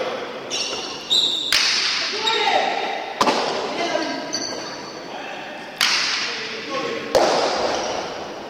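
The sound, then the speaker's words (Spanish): Cracks of a hard ball struck and caught with wicker baskets in a Basque pelota cesta punta match, a handful of sharp, loud impacts spread unevenly over background crowd voices and calls. “Tienen unas, como unas manoplas de canastas y le pegan a la pelota. Y bueno, escuchen, así suena la pelota vasca, cesta punta, en Radio Rueda.”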